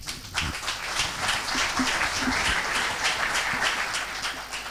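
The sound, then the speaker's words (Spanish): Audience applause rings out at a talk on politics and economics, a steady wash of many hands clapping that holds at an even, moderate level for several seconds without voices. “Ese aplauso para vos, te digo, cada vez te sale mejor”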